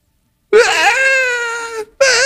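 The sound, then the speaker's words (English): A voice imitating a three- or four-year-old child's tantrum crying: a loud, sustained, high wail that holds steady and trails off, then a second wail starts after a short breath. “He opens it, he sets it aside and he throws a tantrum.”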